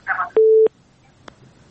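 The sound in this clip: Telephone busy tone after a call-in caller is disconnected: one steady mid-pitched beep, short and clear, preceded by a brief noisy burst and followed by a faint click.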